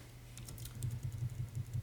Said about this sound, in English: I was supposed to be doing that thing where I come back here to type words that don't matter so I can get into typing my book.